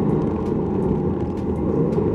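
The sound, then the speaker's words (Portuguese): A family car braking hard from about 208 km/h before a tight curve at the end of a straight on a closed track, heard as a steady, dense rumble of engine and road noise without a clear tyre screech. “e freando, porque a curva no final da reta é bem travada.”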